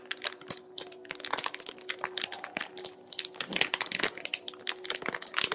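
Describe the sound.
Crinkling plastic from a package of wipes being handled, with many quick crackles and crunches in an irregular stream, moderately quiet and without talk.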